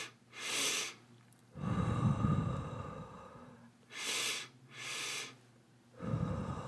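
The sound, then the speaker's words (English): Quick, sharp nasal inhales and longer, breathier mouth exhales from a calming breathing exercise, with two sniffs back to back. The breaths are moderately loud and alone, with no talk. “So it's just kind of 2 quick inhales through your nose and 1 out through your mouth.”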